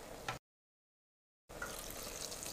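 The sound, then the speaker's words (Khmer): Water is poured into a cooking pot of stir-fried meat with a souring ingredient, for a dish that is then covered and boiled. A steady rushing pour is split by about a second of complete silence. “ហើយយើងដាក់ទឹកល្មមដែលយើងចូលចិត្ត”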